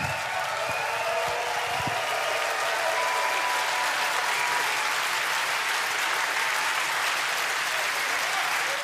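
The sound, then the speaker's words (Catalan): Enthusiastic audience applause at the Leverkusen jazz days after a performance: a dense, steady wash of clapping that holds at an even level for nearly nine seconds. “Entusiasme del públic dels dies de jazz de Leverkusen”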